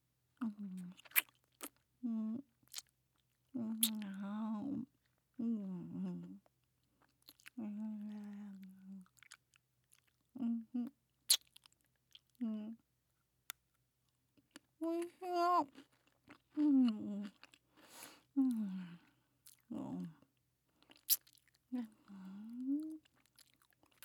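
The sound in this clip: Crunchy chewing and biting of a snack (okashi), with many sharp crisp bites and steady mastication broken by short pauses, alongside a quiet murmuring voice.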